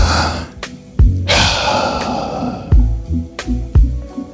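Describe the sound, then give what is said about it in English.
A deep breath, drawn in as a long, loud, airy rush. A few soft low thumps and shorter breathy bursts come before and after it. “Take the deep breath. Utilize the benefits of a deep breath, because deep breaths are God's gift”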